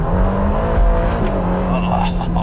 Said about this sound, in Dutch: Heerlijk. De Ferrari Roma.